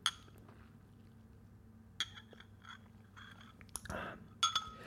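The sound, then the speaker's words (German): Someone takes a sip of tea: a few sharp, bright clinks of a cup against a hard surface, with a soft wet slurp between them. The sounds are quiet and isolated, with no talk. “Moment, ein Schluck Tee.”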